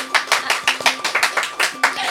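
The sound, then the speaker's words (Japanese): Hand clapping from an audience cheering on someone's progress: many crisp claps in a fairly quick, regular rhythm at moderate loudness, with a faint steady tone behind them. “ちょっと成長してるなって思ったら拍手いっぱいしてあげて。”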